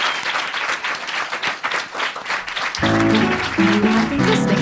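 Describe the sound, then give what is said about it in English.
Audience applause at a live comedy show, loud, dense clapping that carries on throughout and grows fuller toward the end. “just give it up for Tania Edwards. Yay!”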